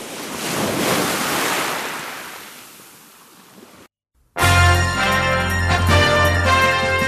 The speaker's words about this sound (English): Sway to the sounds of the ukulele and waves